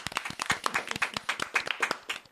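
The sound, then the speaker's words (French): A small group claps to congratulate someone who passed the baccalauréat with honours. Many crisp, uneven hand claps follow in quick succession at a moderate level. “Bah, moi, je dis, on l'applaudit, hein, parce que là, quand même.”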